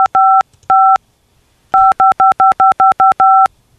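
Phone keypad dial tones: a couple of short beeps, a brief pause, then a quick run of several evenly spaced beeps while a number is entered on a phone's dial pad, clear and fairly loud with no talking.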